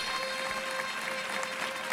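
A faint, steady ovation from a bullring audience after a round of banderillas, heard as continuous clapping at an even level throughout.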